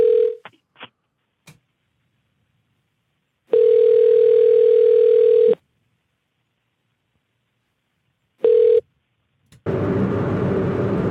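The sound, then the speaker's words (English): A telephone call being placed and ringing out: a few sharp clicks, then a steady low ringback tone with one full two-second ring and shorter fragments between silent gaps, ending in a burst of line hiss. “I'm calling him now.”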